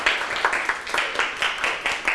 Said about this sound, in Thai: ส่วนกลุ่มที่4และ5ได้เท่ากัน3ยิ้มปรบมือให้ตนเอง